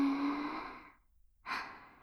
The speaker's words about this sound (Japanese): ほら、息を吸って、吐いて、吸って、